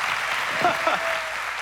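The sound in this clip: Applause from a church audience welcoming a guest speaker, a steady, even wash of many hands clapping that holds for the whole stretch without fading.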